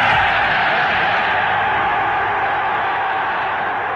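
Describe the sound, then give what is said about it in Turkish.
At the 1936 opening of the Olympic Games in Berlin's Olympic Stadium, a massive crowd cheers in one continuous, dense roar. It stays loud and fades slightly toward the end. “Hitler'in Berlin Olimpiyat Stadı'ndaki konuşmasını izleyiciler ayakta alkışlamıştı. Konuşması coşkulu tezahüratlarla kesilen Nazi lideriyle tanışmak pek çok sporcunun hayaliydi.”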